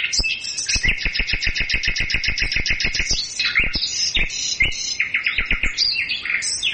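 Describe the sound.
Caged birds singing spring songs in a flower shop: rapid runs of many sharp, high chirps in quick even rhythm, followed by further bursts of trills and calls, with no talking.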